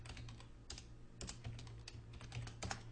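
Typing on a computer keyboard, with shortcut keys pressed while converting shapes to button symbols in design software. Crisp keystrokes fall in irregular clusters of clicks over a low, steady hum.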